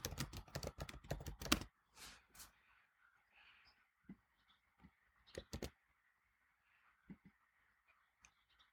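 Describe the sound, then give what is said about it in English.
Typing on a computer keyboard: a quick, dense burst of clicking keystrokes, then sparse, scattered key taps with pauses between them, fairly faint throughout. “I have to type that down.”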